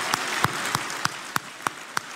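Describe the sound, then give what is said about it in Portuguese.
Single hand claps from a man clapping on stage at a party rally: seven sharp, evenly spaced claps in a steady rhythm over a continuous crowd murmur. “numa altura em que o próprio bate palmas em cima do palanque.”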